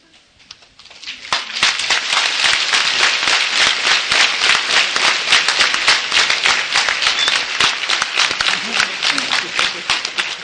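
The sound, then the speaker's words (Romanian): Church audience applauding during a religious service: applause that begins softly, swells within a second or two into loud, dense clapping and holds steady to the end. “Puneți la inimă, domnii mei și iubiții mei, reacția acestui popor care de obicei la slujbe nu aplaudă.”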